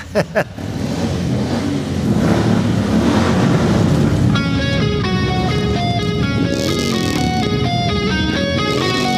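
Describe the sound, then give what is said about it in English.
A bunch of motorcycles rides around on the White House grounds, their engines making a loud, continuous roar with revving surges. Partway through, a bright, stepping melodic music line joins over the engine noise. “That was the sound of a bunch of motorcycles that were asked to ride around to make the president feel powerful”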